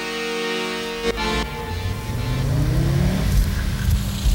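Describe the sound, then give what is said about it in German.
A car driving, heard from inside the cabin: a steady engine drone and road rumble whose engine note rises in pitch as the car accelerates, fairly loud, with no talking. “PKW-Innenraum. In Fahrt.”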